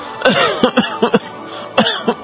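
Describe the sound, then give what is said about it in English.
A bad cough: harsh, raspy, voiced bursts come in two clusters split by a short pause, loud and throaty with no talk. “Guys, he needs to see a doctor. He has got a very bad cough.”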